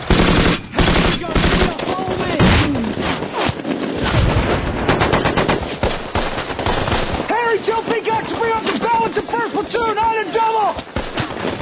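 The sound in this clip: Machine guns fire in a combat scene: loud, rapid, continuous bursts of gunfire throughout, with men shouting over the shooting in the later part.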